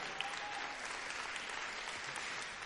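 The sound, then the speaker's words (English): Audience applause at a church talk, a dense and even wash of clapping that holds steady from start to end at a fairly low level, with no single voice standing out. “Can we put our hands together for that?”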